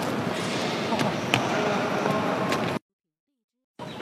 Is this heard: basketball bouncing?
yes